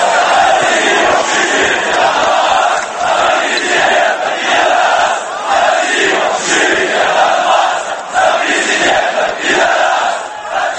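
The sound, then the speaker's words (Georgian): Fans of a Kyiv football club chant mocking, crude slogans at people from eastern Ukraine: a loud, dense mass of crowd voices with a steady rhythmic pulse throughout. “საფეხბურთო კლუბ კიევის დინამოს ქომაგების რიგებიდან ისმის დამცინავი ერთობ უხამსი შეძახილები აღმოსავლეთ უკრაინის მკვიდრთა მისამართით.”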